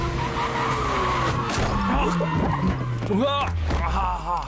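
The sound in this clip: Tires screech as a car skids with failing brakes: a loud, sustained squeal over a low, slowly descending engine tone, with a voice cutting in briefly near the end.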